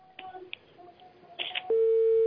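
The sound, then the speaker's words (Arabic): Steady telephone line tone after a dropped call on a call-in line: a few faint clicks and scattered soft noises, then a loud, single-pitched tone that starts abruptly and holds unbroken to the end. “انقطع الاتصال، انقطع.”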